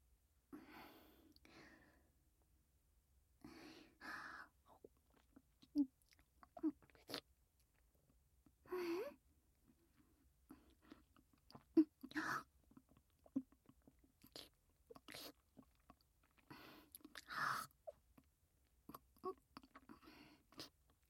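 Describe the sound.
Someone eating and chewing food, with soft crunchy bites and wet mouth sounds in irregular bursts. Quiet breaths fall between the bursts.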